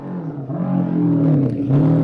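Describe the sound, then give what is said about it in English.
A 500 Honda racing motorcycle roars past during a road race, its engine a loud, steady, buzzing drone throughout. “Terence Sansom just coming through there at the moment on the uh, 500 Honda.”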